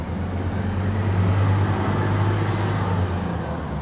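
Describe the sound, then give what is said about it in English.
A bus passes on a city street corner in Pyrmont, heard as a steady low rumble and broad road noise that swells slightly in the middle before easing off. “You can hear the bus going by.”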